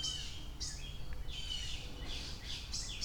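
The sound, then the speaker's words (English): Small birds call in alarm with repeated bursts of rapid high chirps, faint, over a steady low rumbling background. “Little birds are freaking out.”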